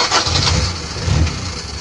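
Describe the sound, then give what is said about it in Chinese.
Car engine cranking and turning over into a low, rumbling idle. The steady drone swells twice, briefly, with no voices. “来来来，赶紧上车啊！我们的车坚持不了多一会儿，我跟你说啊，回头要是抛了锚，发动不了车”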